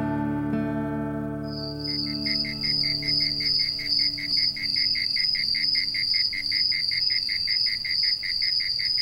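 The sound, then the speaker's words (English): Insects chirping on a warm late spring evening, a steady, high, rapidly pulsing chorus that keeps going without a break after a low, fading drone at the start. “The layered sounds of insects on a warm late spring evening have often been compared to a symphony.”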